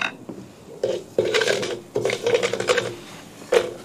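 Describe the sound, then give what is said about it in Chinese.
Toasted rice stir-fried in a pan, giving scraping, clattering strokes and bursts of crackly sizzle that rise and fall in uneven pulses, moderately loud with no talk. “香味一出就可以放入炒米，你看滋滋冒泡”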